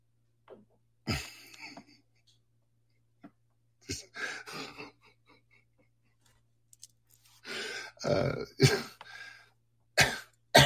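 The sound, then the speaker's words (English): Throat clearing and coughing from someone with something stuck in their throat: a few harsh, scattered bursts separated by quiet gaps, then a denser cluster of rasping coughs near the end. “I appear to have something stuck in my throat.”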